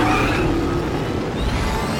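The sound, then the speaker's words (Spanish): An armoured vehicle accelerates with its boost propulsion engaged, producing a loud, steady roar that fills the whole two seconds without easing off. “Aquí en el acelerador, si se abre esto y se acelera, vuela por los aires sin necesidad de rampa.”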